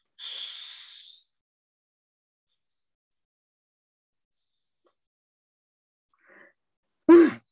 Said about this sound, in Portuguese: Você vai soltar por oito segundos, sibilando.